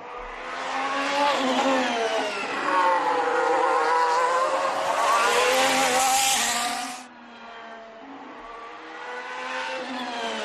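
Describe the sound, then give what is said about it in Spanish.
A Ferrari Formula 1 car engine revs with a loud, high, buzzing whine whose pitch climbs in bands. It cuts off abruptly partway through, then builds again at a lower, steadier level. “Vaya motoraco que ha hecho Ferrari.”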